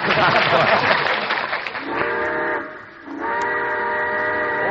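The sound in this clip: Steam train whistle as the locomotive departs: a rush of hissing steam gives way to two long, loud, steady whistle blasts separated by a short pause.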